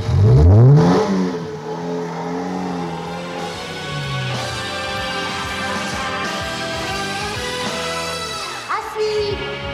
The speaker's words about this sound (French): 7. Trois portières qui s'ouvrent. 8. Trois portières qui claquent. 9. Démarrage rapide.